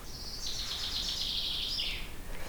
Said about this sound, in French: C'est le chant du pinson des arbres.